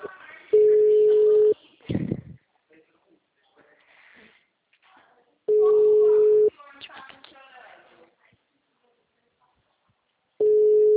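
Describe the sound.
Ringback tone of an unanswered telephone call: three long, steady beeps, each about a second, spaced roughly five seconds apart, with faint rustling and murmur in the gaps.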